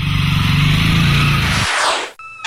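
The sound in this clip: A motorcycle ridden a few hundred metres through a small county town: a loud, steady engine drone with a low buzzing growl that drops away after about a second and a half into a fading whoosh.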